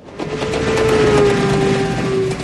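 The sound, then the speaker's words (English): Steady rumble of a moving train carrying displaced people between camps, a broad, even roar of constant loudness with a sustained low whine running through it, with no voices. “So there we were, on a train to some place we never knew.”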